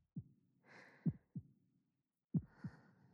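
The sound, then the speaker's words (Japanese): Heartbeat thumps, low and soft, arriving in paired lub-dub beats with a faint breathy hiss between them. A few beats are heard in a slow, steady rhythm, and no one speaks. “心臓の音にはリラックスする効果があるとよ。”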